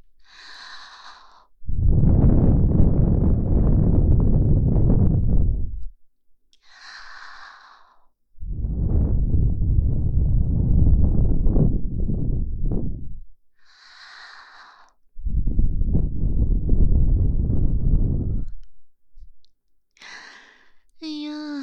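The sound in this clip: A person blows air forcefully to mimic a strong gust of wind, in three long, loud, breathy bursts lasting several seconds each. Soft voice sounds come in the pauses between the blasts.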